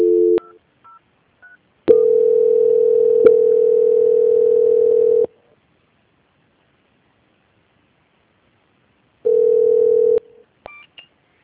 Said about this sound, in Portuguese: vou transferir o contato para o controle de qualidade, que dará continuidade à sua contratação. Só um momento, por gentileza. Ok. Transferência.